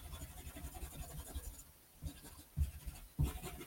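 Pen scratching across paper while filling in a thumbnail sketch and adding pockets of black space: steady, soft scratchy strokes, a brief lull, then a few louder, sharper strokes near the end.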